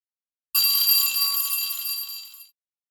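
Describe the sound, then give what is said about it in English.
A single bright bell rings out alone for about two seconds, its high metallic tones starting sharply and then slowly fading away. “that's the sound of the bell.”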